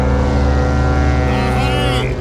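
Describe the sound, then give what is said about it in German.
A coast guard boat approaching at sea gives off a steady, loud engine drone with a rich low harmonic hum that stays even throughout, and a voice briefly rises over it near the end. “Mensch, das müsste die Küstenwache sein.”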